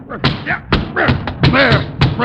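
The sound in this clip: An umbrella struck hard and repeatedly, mistaken for a snake under a chair: several heavy thuds at a fairly quick, uneven pace, mixed with excited voices.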